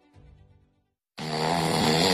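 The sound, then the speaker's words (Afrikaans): A man snores heavily. A faint, low rasping breath comes first, then a brief silence, then a loud, harsh, rattling snore that roars on steadily to the end. “my man snork soos 'n walvis wat 'n generator ingesluk het”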